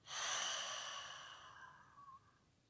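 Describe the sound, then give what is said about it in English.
A deep exhale through the open mouth during a breathing exercise: one long, breathy sigh that starts loud and gradually fades away over about two seconds. “Deep cleansing breath into the body. Open the mouth, exhale, let it go.”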